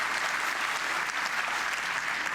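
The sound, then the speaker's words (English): An audience applauds at the introduction of a conference talk, a dense, even wash of many hands clapping at a fairly faint level with no pauses. “Well, I would say clap, applause, applause, applause.”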